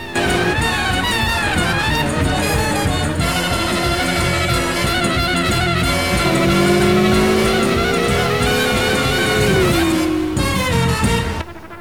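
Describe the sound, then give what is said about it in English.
Engines roar loudly and continuously as a sleek black car crosses a bridge, escorted by six motorcycles weaving around it. Midway, a sustained whining engine tone glides in pitch. “A sleek black car cruises across a bridge, escorted by six black-clad motorcyclists who weave in and out of its path.”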